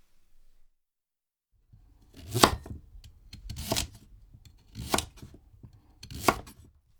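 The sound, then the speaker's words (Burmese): A knife cuts a sweet potato in half and then into quarters, with four distinct, evenly spaced chopping strokes on a board. Softer taps and handling noises come before them. “အဲ့ဒီကစုံကိုတဝက်လှီးလိုက်ပါလှီးရတဲ့တဝက်ကိုနောက်ထပ်တဝက်ထပ်လှီးပါဒါဆိုလို့ရှိရင်အလုံး၄စိတ်ရသွားပါမယ်”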